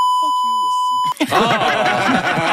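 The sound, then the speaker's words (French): A single steady censorship bleep, about a second long, covers a swear word in a French-language political remark, with the speaker's voice still faintly audible beneath it. Loud continuous talking follows right after. “Ça enlève un petit peu l'utilité du bip, si vous voulez mon avis.”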